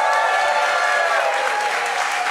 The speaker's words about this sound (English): I just wanted to see if this audience would just clap for anything.